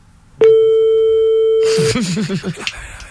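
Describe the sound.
A single long, steady ringing tone sounds on a phone line as a call is placed. It holds evenly for about a second and a half, then stops, and a voice begins speaking.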